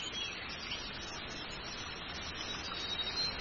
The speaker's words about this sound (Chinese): 流水的声音包围住你